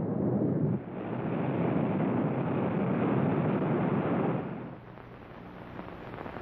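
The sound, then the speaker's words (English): A rocket blasts off with a loud, dense, rumbling roar. It dips briefly early on, surges back steadily, then drops to a lower, fading rush near the end. “Can he survive that blast off?”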